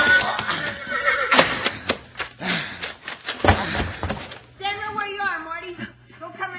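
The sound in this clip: A horse gallops and neighs in a radio-drama western. Hoofbeats and a man's voice lead into a loud, wavering whinny that shakes up and down in pitch.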